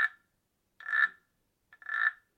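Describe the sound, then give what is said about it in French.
Frogs croak in rasping bursts: a cut-off croak at the start, then two fuller croaks about a second apart, each short and buzzy, heard alone against silence. “Le lendemain matin, la princesse et le lutin sont réveillés par des coassements de grenouilles”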